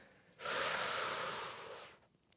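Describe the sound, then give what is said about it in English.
A person inhaling deeply: a single long, hushed intake of breath lasting about a second and a half, rising quickly and tapering off, with no talk. “So just close your eyes and believe that right now it's as simple as this. All fear, all anxiety, all worry go. And inhale.”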